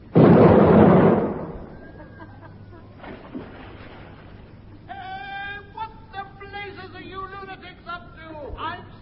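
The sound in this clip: A ship's gun is fired at a jetty, and the explosion lands as one loud, heavy boom that rumbles for about a second and then dies down. People talk afterwards.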